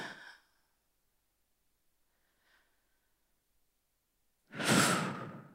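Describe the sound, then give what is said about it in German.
A slow, deep breath out, loud and breathy, comes at the end after a long near-silence broken only by a faint brief puff. A softer breath sound fades out at the very start. The breathing stands alone with no talk over it. “Und ich atme ein und aus.”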